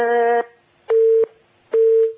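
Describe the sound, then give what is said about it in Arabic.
A telephone busy signal after a dropped call: three loud, evenly spaced beeps at a steady mid pitch, separated by short silences, with no voices. “اتصال قطع لا تعاود معنا”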